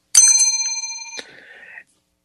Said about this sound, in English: So that's a bell.